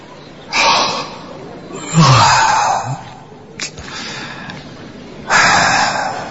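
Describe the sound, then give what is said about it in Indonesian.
Sleepy yawning comes as a few drawn-out breathy gasps and exhales, one with a faint voiced groan. They swell and fade at irregular intervals with a brief click between them. “Beberapa kali aku menguap karena mengantuk.”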